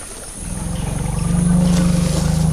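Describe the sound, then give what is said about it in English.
A female elephant gives a deep, low rumble while a male checks her out. The tone is steady and pulsing, swelling gradually louder and holding a near-constant pitch to the end. “She's doing a very nice rumble. Elephants often do that when a female's being checked out by a male. They do this low rumble.”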